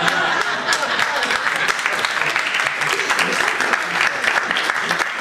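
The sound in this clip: An audience claps after a joke, with dense, steady applause that carries on without pause for the whole stretch.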